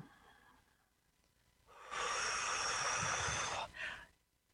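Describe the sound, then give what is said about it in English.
A person takes one long, loud breath, a steady airy rush that holds for a couple of seconds, followed by a shorter second breath sound; no talking. “Take a breath.”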